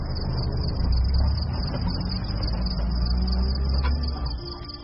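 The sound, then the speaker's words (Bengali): A lorry's engine rumbles steadily as it drives away round a bend in the road, a dense low drone with a hissing edge that holds throughout and eases off slightly at the very end. “প্রচুর ধোঁয়া ছেড়ে lorry পথের বাঁকে মিলিয়ে গেল।”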